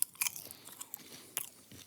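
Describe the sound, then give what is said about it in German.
Chewing popcorn with a full mouth: faint, crunchy bites and mastication in a few irregular bursts, with no talk. “mit vollem Mund. Jetzt muss ich mal schnell aufessen”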